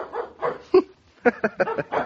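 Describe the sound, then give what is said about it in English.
A thirsty dog whimpering and barking: several short, high whines and yips in an uneven run, with a brief pause before a quicker cluster of barks. “Can you imagine? The dog is thirsty.”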